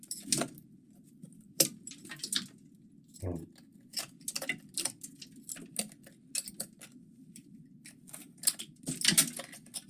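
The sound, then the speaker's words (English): Sharp metallic taps from a small trim pry bar striking a cracked, crumbling concrete wall, sounding solid yet hollow; many irregular knocks of varying loudness ring out over a steady low rumble. “I'm using a tiny little trim pry bar, and you can hear solid but hollow.”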